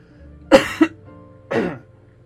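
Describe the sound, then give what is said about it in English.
A person coughs and chokes in three harsh, loud bursts. The first two come close together, and the third follows after a short pause. “Excuse me. What is that? I mean, I'm choking”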